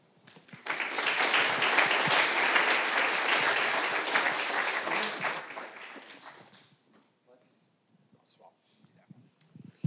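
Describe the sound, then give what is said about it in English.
An audience at a church gathering bursts into loud, dense applause that holds for several seconds, then fades away into near silence with a few faint scattered sounds. “let's just give one more round of applause to everyone that shared.”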